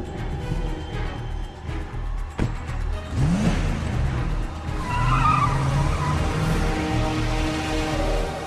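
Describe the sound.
A 4x4 vehicle driving off with skidding tires: a sharp knock, then the engine revs and loud tire squeals and skids ring out over a steady motor drone.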